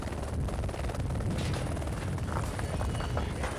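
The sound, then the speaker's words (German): A helicopter flying cargo loads to mountain huts gives a loud, continuous roar with a rapid rhythmic rotor chop that stays steady throughout, with no voices. “Seppels Flughelfer verteilen die Ladung so, dass der Helikopter nicht aus dem Gleichgewicht gerät.”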